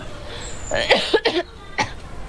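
Harsh coughing from someone choking on cigarette smoke: a quick cluster of a few raspy, breathy coughs, then a single further cough after a short pause, fairly loud over a low steady background hiss.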